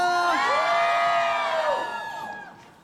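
An audience shouts and cheers on request at a live show: a loud, sustained wave of high-pitched screams and whoops that fades toward the end.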